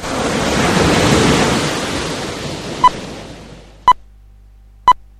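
Ocean waves wash through a radio station jingle, a broad surf swell that rises and then fades away, followed by three short, evenly spaced electronic beeps.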